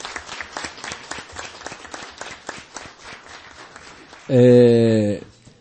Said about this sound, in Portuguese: Pedir uma salva de palma aí do público.